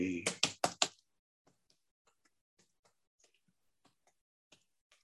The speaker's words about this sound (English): I'm going to type it from William Blake.